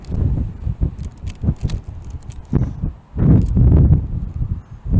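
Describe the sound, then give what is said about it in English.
Strong wind blows at almost gale force, buffeting in loud, irregular gusts of low rumbling noise with brief lulls between them. “if the wind, like this, was to stop blowing at almost gale force”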